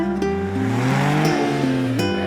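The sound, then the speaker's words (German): A Porsche engine revs hard as the car accelerates. It gives a loud, continuous harmonic drone whose pitch shifts in steps as it climbs and drops, with no talk over it. “Nur im Porsche tritt er voll aufs Gas.”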